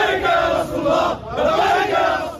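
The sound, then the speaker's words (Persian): A crowd of Hezbollah supporters celebrates victory after a ceasefire, chanting and shouting together in loud, rhythmic swells that rise and dip. “هواداران حزب الله جشن پیروزی گرفتند.”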